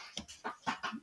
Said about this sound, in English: I'm sorry, I lost my train of thought because people just came home and we have dogs going. I was like, that's dog sound.